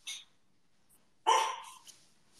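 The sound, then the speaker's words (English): A pet dog barks a few times in short, sharp yelps, one clearly louder than the others, with quiet gaps between them and no talk. “I think that's my dog.”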